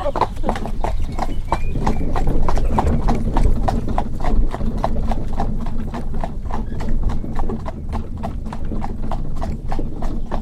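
Hooves of a seven-year-old purebred Normandy cob mare clip-clop in a steady, even rhythm, with many crisp strikes following one another throughout.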